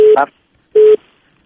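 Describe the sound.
A telephone line tone after a call is cut off: two short, steady, low-pitched beeps about half a second apart, with a brief voice fragment right after the first.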